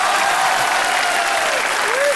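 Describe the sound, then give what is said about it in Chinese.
An audience at a live stage show applauds with steady, dense clapping that runs the whole time, with a voice heard over it. “我观众怎么不能鼓掌呀？我这刚要鼓掌，真的。”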